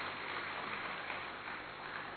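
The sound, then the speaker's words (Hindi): Audience applause given as a farewell to a departing guest at a gathering. It is a steady, continuous patter of clapping, fairly faint and muffled, with no voices standing out. “आदरणीय ब्रजमोहन भाई जी हमारे बीच से विदाई ले रहे हैं, तो हम सभी तालियों से आपको विदाई देते हैं।”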